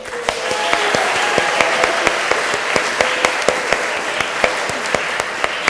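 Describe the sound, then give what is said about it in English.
An audience applauds a comic performer being welcomed on stage, sustained dense clapping running for nearly six seconds at a steady level, with many sharper individual claps standing out throughout. “please give a warm welcome and a big hand to Dazzling!”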